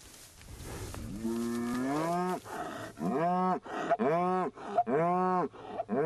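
Cattle moo repeatedly at a cold hay feeder, a herd living freely on pasture. The moos are several loud, drawn-out, rich lowing calls with brief gaps between them, heard alone.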